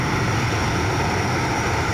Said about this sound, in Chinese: 随着固定翼反潜巡逻机抵达任务空域